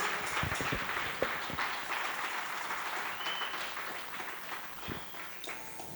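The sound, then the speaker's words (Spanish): Congregation clapping in a Spanish-language church service: an even crackle of many hands, punctuated by a few sharper, louder claps, continuing without speech at a moderate level. “Dele palmas al Señor si así lo quiere hacer y no se detenga, mi hermano.”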